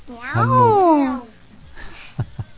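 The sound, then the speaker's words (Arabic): Voices imitate a cat's meow in one long, drawn-out call that falls in pitch, followed by two short vocal sounds. “ما قالش اي ولا قال لماذا تضرب يعني قال مياو”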